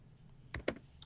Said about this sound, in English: Everyone gets to see how sloppy I type now.